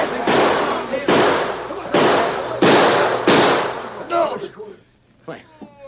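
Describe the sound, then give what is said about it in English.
Gunshots ring out in a gunfight: five loud, booming shots fired at a fairly steady rhythm, each with a short ringing tail. Quieter sounds and voices follow once the firing stops. “I'm sure those last two shots weren't mine.”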